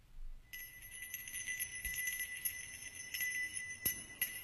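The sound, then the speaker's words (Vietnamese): A small bell rings with a steady, bright, high shimmering tone, joined by a few soft percussive knocks, during a prayer ritual; the sound is faint and there is no talk. “Tay ông khẽ gõ lên cái mõ keng cùng cục, rồi dùng cái chuông leng ca leng keng.”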